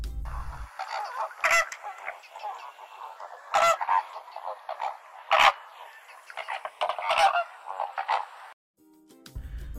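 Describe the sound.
A flock of flamingos calls with many loud, nasal, goose-like honks that overlap in irregular bursts, with a few sharper squawks standing out.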